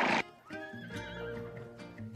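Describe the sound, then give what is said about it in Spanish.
A horse neighs in an open field: a short loud burst, then one long, wavering, high harmonic whinny that lasts nearly two seconds. “apareció de pronto un caballo en medio del campo.”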